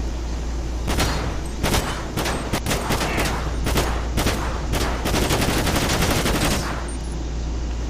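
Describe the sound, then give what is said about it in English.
Rapid gunfire in a police video game as shots are fired at a car's tires: many loud, sharp cracks in dense, uneven bursts over a steady low engine-like rumble, with no talk. “fire warning shot at his tires”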